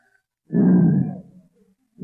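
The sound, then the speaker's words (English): A human voice imitates a lion's roar with a single low, rough growl of under a second that tails off, then another growl begins at the very end. “Oh, a lion. Quiet, folks. One lion!”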